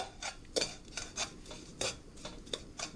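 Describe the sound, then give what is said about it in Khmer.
A utensil stirring sugar in a pan over a fire, making a steady rhythm of light, quiet scraping strokes against the metal, with no talking. “យើងកូរស្កររបស់យើងឲ្យវារលាយបន្តិច”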